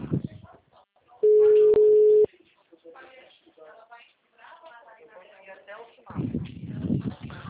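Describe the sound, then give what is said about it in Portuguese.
A telephone disconnect tone on a call line, heard as one loud, steady, mid-pitched tone lasting about a second, with people talking over the phone before and after it. “a ligação tava no mudo, tava desconectado”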